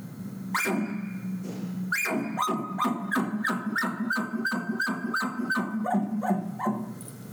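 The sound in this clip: A hunter voices an imitation of a bull's bark: a drawn-out harmonic call, then a fast run of many short, clipped barking notes at a steady, insistent rhythm, loud and alone.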